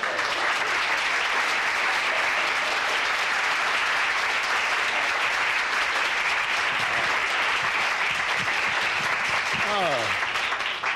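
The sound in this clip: Warm applause from a nightclub audience greeting a comedian at the Hungry Eye stage, a steady, full wash of clapping throughout, with a voice heard briefly near the end.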